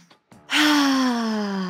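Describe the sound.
A brief breath drawn in, followed by a long, loud voiced "ahh" exhale whose pitch sinks gently as it trails off, alone with no talk.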